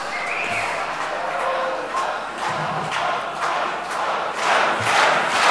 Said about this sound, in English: The audience is chanting for Hans.